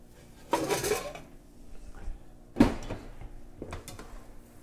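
Metal pot lids clank and scrape in a home kitchen as tofu and mushrooms cook on a stove turned up high. A few sharp clattering hits stand out over low background noise, with no talk.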